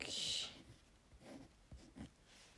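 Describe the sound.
Writing by hand with a pen: a louder, hissing scratch at the start, followed by a few short, fainter strokes.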